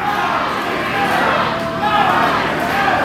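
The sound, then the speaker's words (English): Wrestling fans cheer at a live championship match, a continuous crowd roar that swells in places. A commentator talks over the noise throughout. “You hear the fans, go Chris, go.”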